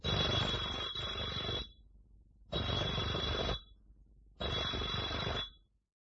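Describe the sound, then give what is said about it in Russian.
A doorbell rings three times: three long, harsh, bright electric rings, each lasting about one and a half seconds, separated by short silent gaps. “Идет по улице, заходит во двор. Звонит Кашиным 3 раза.”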